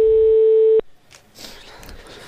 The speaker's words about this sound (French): Attention, en régie, ça compose et ça sonne.